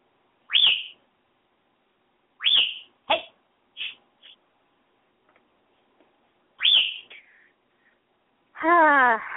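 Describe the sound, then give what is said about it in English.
A bird calling in several sharp, high chirps that sweep downward, spaced out by pauses. The last call is a longer, fuller, harmonic call. “Bird.”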